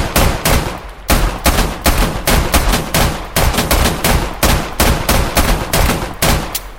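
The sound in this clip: Rapid pistol fire from both guns at a table in a video game: many sharp, loud shots in fast, slightly irregular succession, with no talking.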